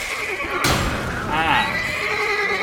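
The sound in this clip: A horse neighs in a video game, a loud whinny that wavers downward in pitch, heard over dense, noisy game sound with a voice talking.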